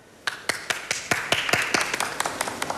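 An audience at an official meeting applauds after a proposal is presented: many sharp claps in a quick, steady rhythm, fairly faint and crisp, with individual hand strikes clearly separated.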